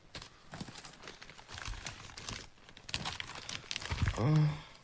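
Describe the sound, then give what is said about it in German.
Plastic rubbish bags crackle and crinkle in a radio play, a continuous rustling crunch that swells and fades in waves and grows loudest near the end. “Ach, dieses Knistern. Komm her und fahr mir einmal damit über die Wange.”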